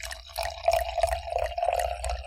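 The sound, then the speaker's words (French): Pinot noir wine pours into a glass at a tasting. The liquid makes a continuous gurgling trickle with a bubbly tone that lasts about two seconds. “Alors à verser comme ça dans le verre”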